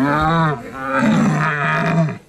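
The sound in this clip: A person imitates a young stag's bellow at a deer-call contest, a raspy, throaty roar held for about two seconds with a dip in the middle, less gravelly than an old stag's.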